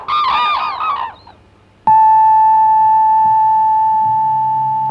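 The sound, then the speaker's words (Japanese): A radio noon time signal: a brief voice is followed by one loud, steady pure tone that starts abruptly and holds unbroken for about three seconds until the end. “ロイド商事が正午をお知らせします。”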